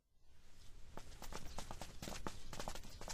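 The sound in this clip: Hurried footsteps of people walking quickly in an audio drama as a suspect is marched to the magistrate's office: a faint, fast run of many short steps that starts after a brief quiet moment and continues steadily.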